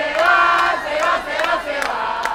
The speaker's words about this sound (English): Still, expat cheers like this one at Sunday's voting site in Coral Gables may have been a bit too optimistic.